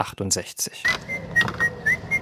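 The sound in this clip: A whistled tune from a 1968 film: a few clear, sustained whistled notes that shift pitch, following a brief burst of voice at the start.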